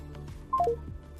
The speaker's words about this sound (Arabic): هي مكالمة تقطع